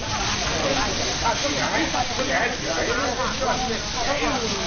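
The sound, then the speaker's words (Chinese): Grilled beef tenderloin tendon skewers sizzle on a hutong barbecue grill, a steady, dense crackling hiss that continues without a break while muffled voices talk faintly. “让诸位社会名流爱不释口的，则是勇哥的招牌烤外脊筋。”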